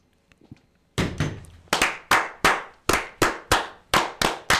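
Masonic toast 'fire' ritual: brothers clap and slam together in unison, producing a loud, evenly spaced series of sharp percussive cracks after a faint start. The first hit carries a deep thump, and each strike decays quickly.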